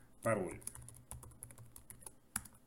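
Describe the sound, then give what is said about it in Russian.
An email address typed on a computer keyboard to sign in to a Microsoft account: many quick, irregular key clicks, fairly faint, with a brief voice at the start. “Вводим наш адрес, после чего нас попросят обязательно ввести”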